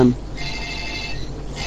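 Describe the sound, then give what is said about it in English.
A telephone rings with a high electronic warbling tone for under a second, following a short burst of voice at the start. “I wish that phone would go away.”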